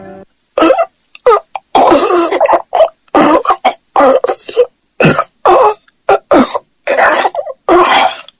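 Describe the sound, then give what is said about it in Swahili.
A person choking and coughing while losing breath: many harsh, ragged coughing bursts in quick, irregular succession, separated by brief silent gaps, loud and without speech. “Akawa na choke, anapaliwa, pumzi inakata.”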